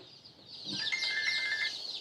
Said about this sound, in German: Nachmittags auf dem Geflügelhof im niedersächsischen Köhlau.